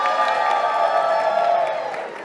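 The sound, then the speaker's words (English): An audience cheers and goes wild on request, a dense, sustained roar of whooping and shouting voices that holds steady and then eases slightly toward the end. “then could you cheer and go nuts now,”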